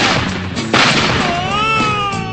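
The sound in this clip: A gunshot sound effect cracks out as a sudden burst of noise amid a dense, loud backdrop, followed by a thin whistling tone.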